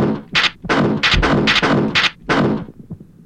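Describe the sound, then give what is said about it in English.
A gun is reloaded in a video game, heard as a quick series of sharp mechanical clacks and dull thuds in an even rhythm with no voices over it. “You can reload your gun by pressing it. Enter, like that.”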